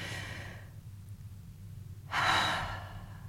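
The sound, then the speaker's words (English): A deep breath taken together by a group: an airy, broad hiss swells in partway through and slowly eases off, after a quieter stretch, over a low steady background hum. “I invite you to take a breath. Let's do that together again.”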